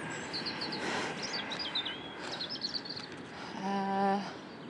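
Faint bird chirps and twittering come from a spring garden over a steady rush of wind.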